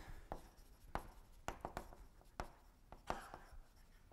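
Writing on a board during a mathematics lecture: a faint, irregular run of sharp scratchy taps and short strokes, with no talk over them.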